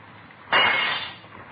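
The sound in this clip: Glass is broken to get into a room: a single sharp crash bursts out alone and decays within about a second.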